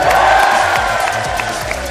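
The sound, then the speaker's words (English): Live audience applause in a cinema, a dense, steady wash of clapping mixed with cheering and crowd noise that holds at an even loudness throughout. “An unrehearsed, spontaneous moment of enthusiasm. You can keep the applause going if you want for a little longer.”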